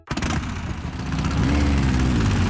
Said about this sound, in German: Ja, kannst du es hören? Der Klang von Freiheit und Abenteuer, von unvergesslichen Erinnerungen, die Faszination einer ganzen Generation. Die Oldtimer-Motorradausstellung Golden Show Bikes